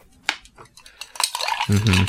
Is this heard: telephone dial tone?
no